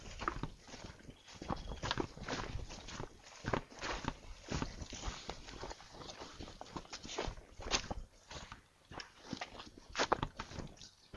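Footsteps of people walking outdoors well after midnight, a steady run of many soft crunching steps through the whole stretch, fairly faint and uneven in rhythm.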